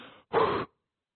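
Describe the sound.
A human voice imitates a dying person's last breath leaving the body: a brief faint breathy sound, then one short, louder, rough exhaled puff lasting under half a second, followed by silence.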